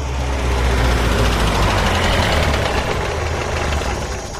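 A car engine runs steadily during a Bengali radio drama scene: a loud, dense, constant rumble with a low throb that eases slightly at the end.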